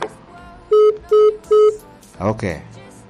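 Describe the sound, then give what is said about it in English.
Three evenly spaced electronic beeps from a radio, each short, loud and steady in pitch, standing out sharply against a quieter background. “A beeping radio.”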